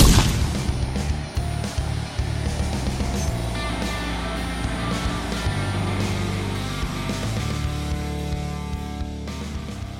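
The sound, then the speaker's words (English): A flashbang grenade goes off in the Fallout Arizona audio drama as a loud burst at the very start, followed by a long, dense rumbling wash with faint ringing tones that stays loud throughout. “Flashbang out. Everybody, eyes!”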